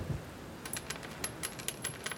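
A coin is dropped for a beggar, giving a faint series of light metallic clinks and rattles spread over about two seconds.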